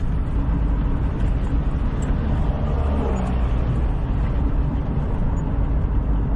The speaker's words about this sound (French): Pour mieux comprendre l'ensemble des difficultés des radios communautaires, on prend la route direction la ville de Progreso, tout à l'ouest du Honduras.